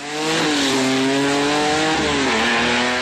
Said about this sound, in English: every drag strip has its roar.